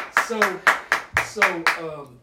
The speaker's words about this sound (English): Round of applause. Round of applause.